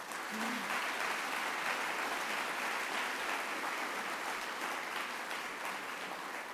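Schoolgirls applaud at a school science wing event to warmly welcome guests, a steady, even wash of clapping that holds at the same level throughout.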